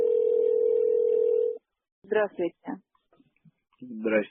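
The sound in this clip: A telephone line tone plays while a call is being placed: a single steady, mid-pitched hum lasting about a second and a half. It stops abruptly, and people talk afterwards.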